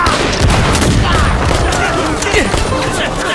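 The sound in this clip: Battle gunfire, a dense volley of many rapid shots and booms that runs continuously and loudly through the whole stretch.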